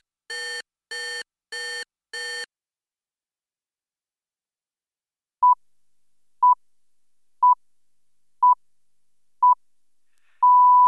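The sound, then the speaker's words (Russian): An electronic wake-up signal for employees in an audio drama of 1984 sounds four buzzy tones, then falls silent before five short pure beeps about a second apart and one longer closing beep. “Семь часов пятнадцать минут. Сигнал подъема для служащих.”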